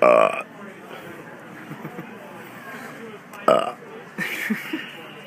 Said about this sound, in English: Sorry, I needed to burp. That comes out real good on podcasts. Burps.